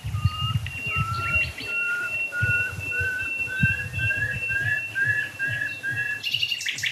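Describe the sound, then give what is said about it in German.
Nightingale song near dead oak trees: a long run of short, clear whistled notes repeating at an even pace and edging slightly upward, over a steady high tone and a low continuous rumble. “Vielleicht halte ich noch einmal drauf auf die toten Eichen. Nachtigall.”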